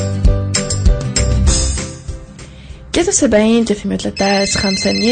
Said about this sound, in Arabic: اتصال هاتفي ناخذوه ونستقبلوه مع بعضنا